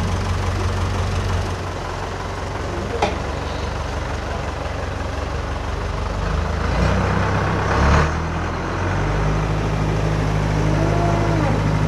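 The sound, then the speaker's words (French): A tractor driving and pulling on ropes: a low, continuous engine rumble that holds steady throughout with no clear breaks, only slight swells in loudness. “Mettre un autre tracteur pour tirer. Il roule beaucoup plus vite là, il freine trop longtemps.”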